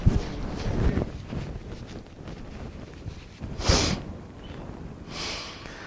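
Sniffing from a runny nose during allergy season: a few short, breathy sniffs, one sharp at the start and two more later, over a soft airy background with no talk.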